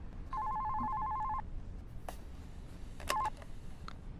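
An electronic telephone ring plays a sustained two-tone burst of about a second, then a much shorter burst after a quiet gap. A few sharp clicks fall in between.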